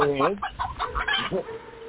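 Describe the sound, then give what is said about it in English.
Chicken clucking in a quick run of several throaty, pitched clucks that rise and fall in tone. The call is fairly loud and heard alone, with no talk. “It's Chicken Bitch. Where dogs, cats, and other chickens fear to tread.”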